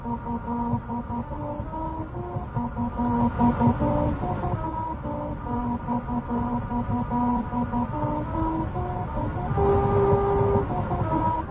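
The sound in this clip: Car tires rolling over a grooved musical road outside Lancaster, California, at a set speed, droning a steady tune of sustained humming tones that step from pitch to pitch without a break, with no voices.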